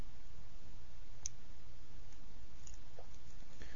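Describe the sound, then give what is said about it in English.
A sharp single click of a nail clipper cutting through a fingernail stands out against a steady low background hiss, with otherwise little else happening. “I'm going to cut my nail.”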